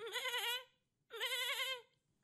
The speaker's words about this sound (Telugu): బలికి సిద్ధం చేసిన మేకలు రావి చెట్టుకు కట్టి ఉన్నాయి. అవి అంది అందని రావి ఆకుల కోసం ఎగురుతూ